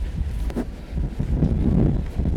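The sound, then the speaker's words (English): Wind blowing outdoors on a hillside walk near a bothy, a steady, loud rumbling roar that buffets the microphone, with slight surges of gusting and no talk. “Oh, this wind has just come out of nowhere.”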